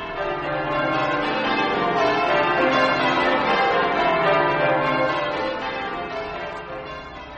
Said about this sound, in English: I wish that dreadful bell would be silent.